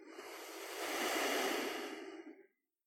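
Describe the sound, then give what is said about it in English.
A single long, deep breath, a soft airy rush that swells, holds and fades over about two and a half seconds before silence. “Take a deep breath. Inhale. Exhale.”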